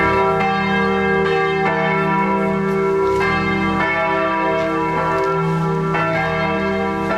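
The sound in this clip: Church bells of the St. Georg church in Wendessen ring out loudly, many strikes overlapping into a continuous, rich peal with long resonant sustain that keeps going throughout.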